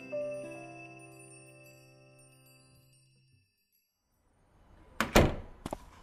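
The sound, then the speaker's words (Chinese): A door being closed: a heavy thud followed shortly by a lighter knock. Before it comes a fading, chime-like ringing tone and a stretch of quiet. “他见陆延辰关上门”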